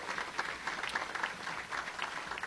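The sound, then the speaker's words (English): Faint, steady applause from an audience showing appreciation for elected officials at an evening event, a soft continuous patter of many hands clapping at a low, even level. “if we could all give a round of applause of appreciation to all of our elected officials.”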